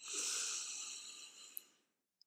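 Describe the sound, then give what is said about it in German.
A single long, deep breath in during a guided breathing exercise, a soft airy hiss that swells and then slowly fades, followed by a couple of tiny clicks. “Atme hier tief ein”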